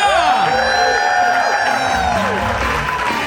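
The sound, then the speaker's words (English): An audience cheers, whoops and applauds the comedy duo Frangela at a live show. The roar is loud and sustained, with shouted voices rising above steady clapping. “Come on, make some more noise for Frangela!”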